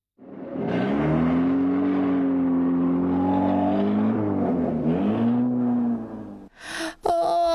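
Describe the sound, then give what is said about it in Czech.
A low droning rumble like a truck engine, standing in for a truck running over an eggshell, holds steady with a dip in pitch around the middle, then ends in a short burst of crackling crunches. “Krach, zaúpěla skořápka, když přes ní přejel nákladní vůz.”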